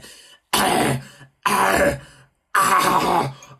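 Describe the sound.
A voice imitates choking on fluff stuck in the throat with three loud, harsh, rasping coughs and throat-clearing bursts, evenly separated by short silences.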